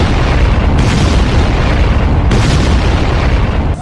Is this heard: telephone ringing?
no